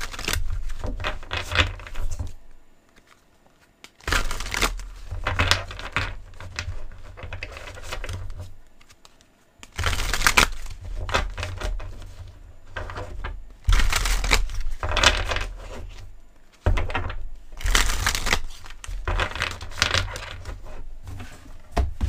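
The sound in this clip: Tarot cards are handled and shuffled in several loud bursts of papery riffling, tapping and rustling, separated by short pauses.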